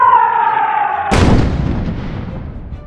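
A single heavy artillery blast from World War I trench warfare bursts out after a steady tonal whine, its loud boom decaying over the following seconds into a rumbling tail.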